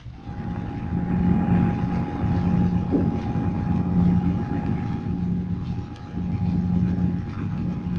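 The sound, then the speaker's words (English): A motor generator set runs with a steady mechanical drone, a low rumble under a constant thin whining tone that holds unchanged throughout. “A motor generator set.”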